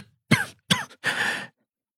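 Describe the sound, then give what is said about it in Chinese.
A man coughs three times in quick succession. The first two coughs are short and sharp, and the third is a longer, rougher hacking cough that trails off into silence. “一个机灵，陆元浩咳了起来。”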